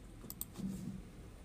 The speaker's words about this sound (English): We get into the Utah Online Library, we click high school, then we click Gale Reference Collection High School.